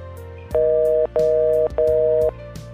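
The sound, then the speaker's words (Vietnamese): Three steady electronic beeps of a telephone hang-up tone sound at the end of a mobile phone call, each about half a second long and separated by brief gaps, loud and alone. “Tiếng tắt máy điện thoại vang lên.”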